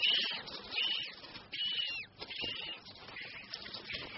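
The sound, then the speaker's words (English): Galapagos penguin chicks calling inside rocky lava tubes, giving repeated high, thin whistling peeps in a steady run of calls with no other voices. “Here, a very different kind of animal can be found in the rocky tubes. The chicks of Galapagos penguins.”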